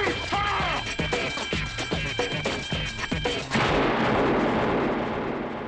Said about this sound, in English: You didn't have to shoot him